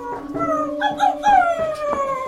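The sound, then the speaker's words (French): A dog howls in front of a door, a drawn-out, wavering tonal cry broken by short whimpering catches, with the pitch sagging slowly toward the end. “Mon chien s'est mis à hurler à la mort devant la porte de Monsieur Bergamot.”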